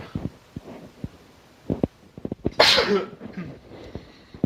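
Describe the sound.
A single sharp, loud sneeze bursts out midway. Several soft knocks come before it, and quieter rustling follows.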